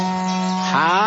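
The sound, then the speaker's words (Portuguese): A berrante, a cattle horn, is blown in a steady, low, droning note rich in harmonics. The note shifts into a brighter, wavering tone near the end of the short blast. “Bota o berrante pra funcionar”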